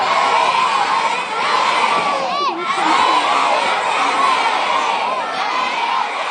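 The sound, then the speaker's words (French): Pupils at an elementary school in St. John's, Newfoundland cheer and shout together for a professional hockey player of the Montreal Canadiens, a dense, high-pitched crowd of children's voices holding loud and steady for the whole stretch. “On entend des élèves de l'école élémentaire Vanier à Saint-Jean-de-Terre-Neuve qui encouragent Alex Newhook du Canadien de Montréal.”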